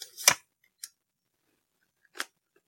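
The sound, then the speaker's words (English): Playing cards being drawn and shuffled, heard as three short, crisp papery snaps separated by silence, the first the strongest and the others softer. “The hands come out, draws one, shuffles again for a moment, draws a second card.”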